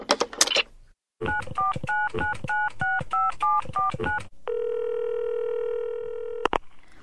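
A telephone number is dialed: a rapid, even run of touch-tone beeps in two-note pairs, followed by a steady, buzzing ringing tone that ends with a click. A short noisy handling sound comes before the dialing.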